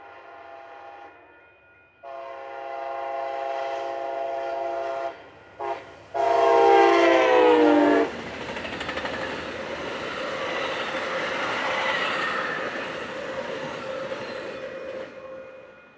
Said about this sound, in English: As you can see, it wasn't the locomotive that I hoped it would be.